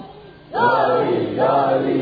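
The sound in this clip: Crowd chanting a religious slogan in unison at a gathering, two loud shouted bursts of many voices following a brief quiet start, the second close on the first.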